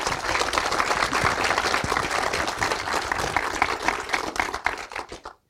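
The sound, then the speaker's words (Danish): A studio audience applauds as a guest, a university lecturer in the history of religion, is welcomed onto a talk show. The clapping is dense and sustained, then stops abruptly at the end. “Giv ham en stor hånd.”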